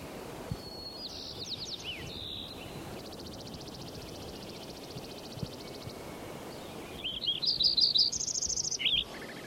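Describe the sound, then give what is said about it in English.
Sparrow chirping in two short bursts of high, thin, rapidly repeated notes, separated by a long quiet stretch of faint background hiss; the second burst is slightly louder. “Like it's sparrow number 5 again.”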